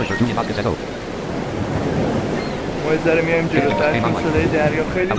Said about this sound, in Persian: این صدای دریا خیلی زیاده.